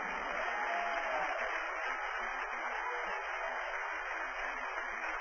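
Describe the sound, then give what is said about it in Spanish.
Faint, steady applause from a church audience, an even, continuous hiss of many hands clapping with no voices over it. “Dale un aplauso a Dios si puede.”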